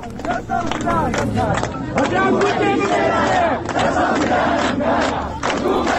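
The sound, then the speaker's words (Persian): Crowd chanting protest slogans at a memorial ceremony: a dense mass of loud shouting voices in rhythmic bursts, rising and falling together without pause. “شهید نمی میرد، قتل به خاطر روسری، تا کی چنین خاک بر سر باشیم، شهید تلقین نمی خواهد. مردم شعار دادن”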